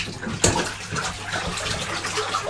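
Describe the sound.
A child splashing in bath water, with sloshing, rippling bursts and one sharper splash near the start over a steady watery wash.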